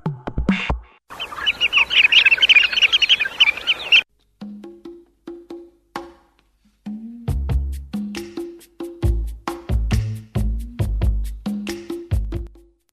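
Birdsong: a dense burst of high, rapid chirping gives way to many short, clipped calls in irregular clusters separated by brief silences, moderately loud and without voices.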